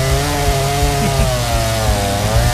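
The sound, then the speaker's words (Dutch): A big chainsaw cuts through wood, its engine holding a loud, steady buzzing drone with a slightly wavering pitch throughout. No voices are heard. “Maar dan heb ik mijn grote kettingzaagmonster bij me. Om alvast te beginnen met zagen”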